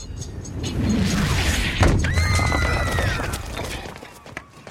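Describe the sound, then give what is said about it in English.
A person lands hard on a residential street, smashing the road surface, with a heavy booming thud and crash over a rumbling wash of noise and crumbling debris that slowly fades. “Hancock touches down, shattering the road surface”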